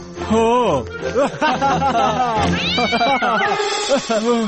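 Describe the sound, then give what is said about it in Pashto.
A cat meows and yowls as a story sound effect, giving a string of loud, wavering meows that rise and fall in pitch with hardly a pause between them. “اسد ناڅاپه بیا په پیشو وخود او تاج ورڅخه وغورځېد.”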